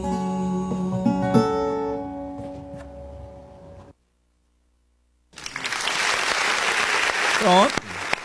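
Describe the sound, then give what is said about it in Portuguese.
Audience applause breaks out after a song on a radio music program: a dense, steady crackle of many hands clapping, which follows a stretch of music and a brief silence and continues loudly to the end. “Vamos aplaudir.”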